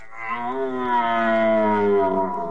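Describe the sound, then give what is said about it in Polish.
A fallow deer stag calls during the rut: one long, loud, deep harmonic groan of about two seconds, steady at first and dipping slightly in pitch toward the end, with no other sounds. “Po rykowisku bowiem czas na bekowisko, czyli okres godowy danieli. Byki, wydając charakterystyczne odgłosy, chcą przyciągnąć do siebie chmary łań.”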